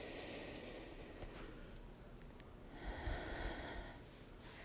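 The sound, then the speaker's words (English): Noisy, airy breathing during a guided relaxation exercise, with a louder, deeper rush of air partway through that fits a long breath drawn in. “Take a deep breath in. Take another deep breath in.”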